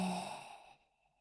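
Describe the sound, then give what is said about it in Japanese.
A single deep breath pushed out in a long, breathy sigh during a guided deep-breathing exercise. It starts fairly loud and fades steadily away over about a second, with no talk. “私の言うペースに合わせて深呼吸してね。今度は苦しくなるくらい、吸って、吐いて、”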